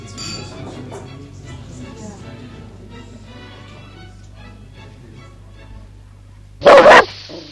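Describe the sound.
A dog barks in a radio drama, the animal presented as a handsome dog to an officer. The barking comes as one short, loud burst near the end, after a long stretch of quiet, low voices.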